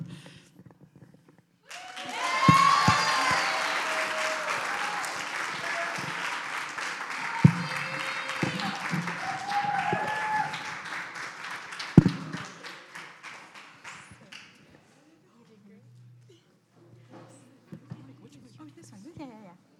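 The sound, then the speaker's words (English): Audience applause at a student-led testimony night: a broad wash of clapping with whoops and cheers swells in after a couple of seconds, holds, then thins out toward the end, with voices following. “Give it up one more time for our amazing student testimonies.”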